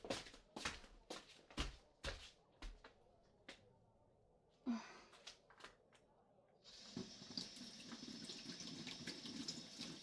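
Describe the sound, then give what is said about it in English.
Hands being washed under a running tap, preceded by a series of sharp knocks and clatters, then giving way to a steady, hissing stream of water that continues to the end. “I'm just gonna wash my hands really quick.”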